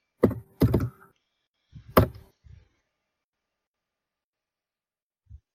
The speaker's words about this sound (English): So let me try the control panel so we can open up this door.